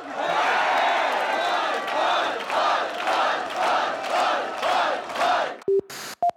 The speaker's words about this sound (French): Arrêtez, vous êtes pas tannés d'applaudir